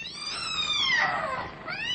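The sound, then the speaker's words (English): A cat screeching as it attacks: one drawn-out, harsh yowl rich in high overtones. Its pitch sags through the middle, then climbs again near the end. “The cat! Look out for the cat! The cat launched herself, not at Malcolm, but at the luckless custodian.”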